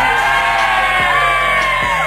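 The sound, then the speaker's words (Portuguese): A crowd-cheering sound effect plays on a Portuguese-language radio show, loud whoops, yells and cheers blended into one steady, bright roar. “Bota palmas pro Henrique aí, produção.”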